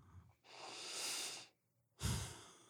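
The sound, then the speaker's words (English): A slow, deep breath is drawn in for about a second, soft and airy. After a short pause comes a second, louder breathy rush of air, with no talking. “we just want to take a moment to take in a deep breath”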